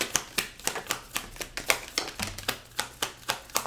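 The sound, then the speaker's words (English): Tarot cards being shuffled and flicked out of the deck, producing many crisp, evenly spaced taps and slaps at a brisk, steady rhythm, with no talk. “The cards are flying out.”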